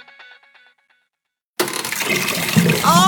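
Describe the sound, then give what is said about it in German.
Water from an overflowing toilet and sink bursts in abruptly after a near-silent start, then keeps gushing loudly and steadily to the end. “Oh, Waschbecken, Toilette, alles voll bis oben hin.”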